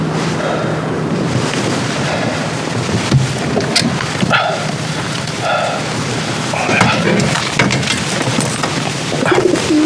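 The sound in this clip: Carrier pigeons cooing in a cage give soft, repeated low coos over a steady, noisy background hiss. No clear talk is heard.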